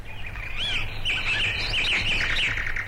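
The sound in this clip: Birds chirp and twitter continuously in a lively stream of high, rapid calls and trills, several overlapping, with no voices present.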